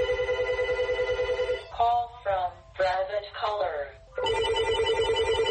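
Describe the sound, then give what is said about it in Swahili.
Telephones ringing: a loud, buzzing electronic ring sounds at the start, stops while a voice speaks briefly, then starts again at the end. “Dakika chache tu baada ya tangazo hilo, msikilizaji, simu zilianza kulia si haba.”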